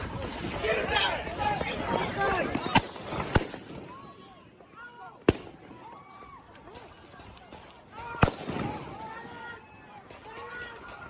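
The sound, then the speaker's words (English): A few sharp, loud gunshots fired by other people in replayed footage crack out one at a time, spaced seconds apart, over a busy background of shouting voices and commotion. “you hear the other shots. Right here. First of all, the luckiest... They're still going. Boom, boom. That's other people.”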